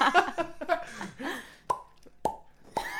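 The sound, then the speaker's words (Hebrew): Three sharp pops ring out as mini champagne bottles are opened, evenly spaced and each a bright, abrupt burst with a short ringing tail, coming after a brief stretch of voices. “אז בואו נפתח את השמפניה ונתחיל ב... זה בקבוק קטן, יש לי 3 מיני בקבוקי שמפניה. תפתח לנו את השניים האחרים.”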